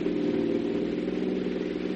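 Steady, droning engine of a pickup truck driving along a rough jungle road, a continuous mid-pitched rumble that holds an even loudness throughout, with no voices over it.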